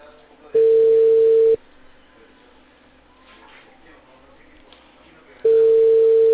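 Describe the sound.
Telephone line tone while calling someone back: two loud, steady, mid-pitched tone bursts, the first lasting about a second and the second starting near the end, with a faint crackly line between them.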